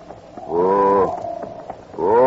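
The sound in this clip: A stubborn government mule brays in two long, harmonically rich calls, loud and drawn-out, the second cut off at the end.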